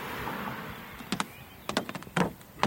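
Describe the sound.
A beekeeper opens a wooden hive box holding honeycomb: faint scraping and a few sharp knocks and clicks stand out over a low, soft hiss.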